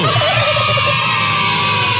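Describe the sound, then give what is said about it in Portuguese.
A turkey gobbles: a quick, warbling burst opens into a sustained, rough, buzzy call, loud and alone throughout. “É o peru.”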